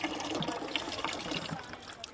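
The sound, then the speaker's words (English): Water trickles in a thin, weak stream from a tap molded onto a small white plastic drum as hands are washed beneath it, a soft continuous splashing and dribbling. “Stanley washes his hands in a reluctant stream of water, pouring out of a tap molded onto a small white plastic drum.”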